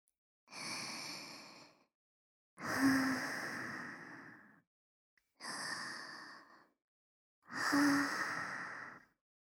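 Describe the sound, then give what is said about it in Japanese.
Deep, slow breathing: four long, airy breaths, each lasting well over a second and evenly spaced with silent gaps between them, fairly loud and alone without any talk. “深呼吸することで心臓の鼓動を抑えることができますよ。さあ先輩、深呼吸をしましょう。”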